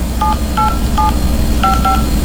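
Telephone keypad DTMF tones dialing a number: five short, clean beeps, three at an even pace, then a brief pause before two more, over a steady low background noise.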